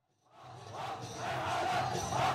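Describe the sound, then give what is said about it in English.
Jubilant street crowd in Aleppo, with people dancing, rises out of near-silence into a loud mass of voices that keeps swelling toward the end. “Jubilant crowds of people are in a street and some are dancing.”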